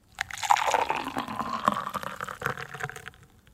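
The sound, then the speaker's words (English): Coffee being poured: a steady trickling, splashing stream of liquid that keeps up for about three seconds and then thins out and fades. “It is coffee. It's coffee.”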